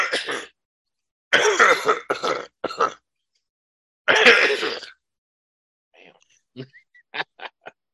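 Harsh coughing with throat clearing comes in a few short, rough bursts, some grouped into quick clusters, followed by faint small clicks.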